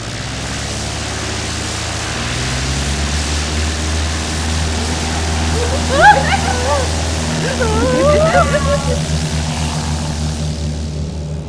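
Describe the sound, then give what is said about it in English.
Aircraft engine drone during a takeoff run, a steady low rumble with propeller-like tone that swells slightly in the second half, while people talk briefly over it. “Oh, and we just got cleared for takeoff. Here we go.”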